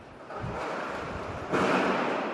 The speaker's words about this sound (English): as the wind whistles through this place. You can hear everything rattle.